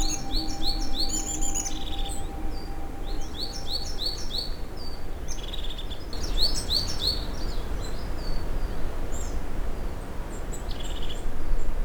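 Birds chirping in bright, rapid bursts of repeated high tweets that come in clusters over a steady, hissy background, with a faint steady tone early on.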